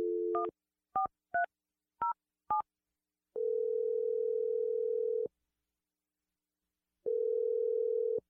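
Telephone tones while a number is dialed: a brief dial tone and a few short touch-tone keypad beeps, then two long, steady ringing tones separated by a pause, fairly faint and alone.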